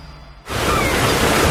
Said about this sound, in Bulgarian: Почивка, плаж, море, лятото зове.